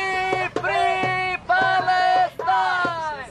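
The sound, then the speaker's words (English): Protesters chant outside the U.S. Capitol during a demonstration against a foreign leader's address, many voices in unison delivering three sustained, tonal chant phrases separated by brief breaks. “Thousands of protesters descended on Washington, chanting,”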